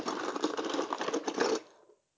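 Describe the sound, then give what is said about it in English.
A small pumpkin-carving tracing wheel with nodules spins, giving a faint, rapid ticking patter that runs steadily for about two seconds and then stops. “this little thing. I don't know if you can hear it spinning, but it's got little nodules on it, so we can use that to trace essentially the design onto the pumpkin.”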